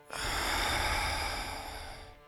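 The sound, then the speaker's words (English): One deep, airy breath during a breathing exercise, a long, breathy rush of air that holds steady before tapering off quietly. “Now take a deep breath in and hold it and let it out”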